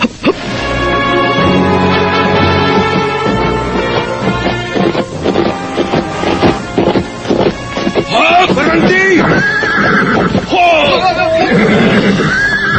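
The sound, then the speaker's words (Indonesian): Several horses approach together, with loud whinnies rising and falling over a dense, continuous clatter of movement. “Oh, aku mendengar beberapa ekor langkah kaki kuda. Sepertinya rombongan berkuda itu ingin menuju tempat ini.”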